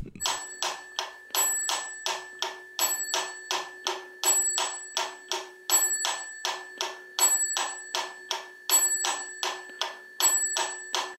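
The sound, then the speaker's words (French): Mechanical metronome dated to 1832 clicking in a steady, even beat, with a bright bell ding marking the first beat of each four-beat measure. Sharp, moderately loud ticks repeat throughout, and the chime recurs on every fourth click. “un métronome euh, de 1832. Enfin, on peut imaginer qu'il est de cette année-là parce qu'il a une particularité, c'est qu'en plus de faire clac-clac, il fait parfois ding-ding.”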